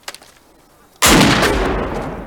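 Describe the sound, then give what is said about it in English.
A single loud gunshot fired from a weapon cracks out after near silence, its broad blast decaying slowly over the following second. “Discharge your weapon. Do it!”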